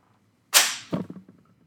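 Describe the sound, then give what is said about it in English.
A single sharp hand clap made to sync recordings bursts out loud and bright, followed by a duller low thump from the mic being bumped and a few fading small knocks, then quiet. “So should we clap to sync it up? Yeah, go ahead.”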